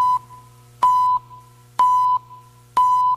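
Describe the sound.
Countdown beeps before an electoral broadcast network link-up: four short, steady, mid-pitched electronic tones spaced evenly about a second apart over a low continuous hum.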